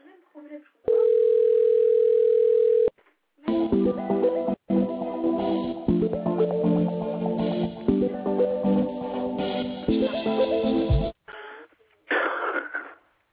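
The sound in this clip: A telephone line tone plays as a caller waits to be transferred to an agent: one steady, unbroken tone lasting about two seconds, followed by a long stretch of tonal music with a few brief sounds after it.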